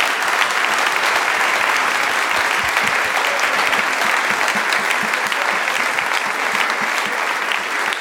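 Audience applause welcomes a contestant onto the stage at a show, a dense, steady wash of clapping that holds at an even level for the whole eight seconds with no break.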